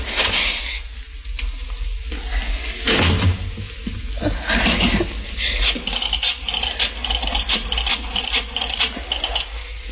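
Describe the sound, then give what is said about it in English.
A key rattles and scrapes in a stubborn door lock, a busy stream of quick metallic clicks and scratches that keeps going almost without pause over a low hum. “Key. Where's my key? Darn this lock. Darn the lock.”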